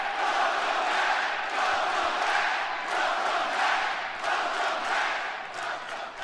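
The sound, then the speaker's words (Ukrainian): A wrestling crowd at a RAW show chants "welcome back" in unison. The chant is loud and rhythmic, with massed voices repeating the phrase in steady pulses throughout. “З поверненням скандують глядачі.”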